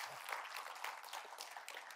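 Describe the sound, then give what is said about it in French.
Congregation applauding during a church service, a faint, continuous patter of many hands clapping with slight swells in intensity and no voices on top. “Est-ce qu'on pourrait juste applaudir notre Dieu qui veut se servir de nous pour faire une différence dans ce lieu?”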